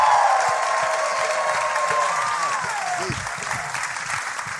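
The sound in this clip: Applause and cheers from a live audience welcoming two hosts onto the stage, a thick, continuous roar of clapping that eases slightly toward the end.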